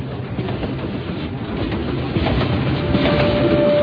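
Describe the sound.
A passenger train carriage rolling on rails, heard from inside the carriage as a loud, continuous rumbling roar that grows slightly louder, with a thin steady whine appearing near the end.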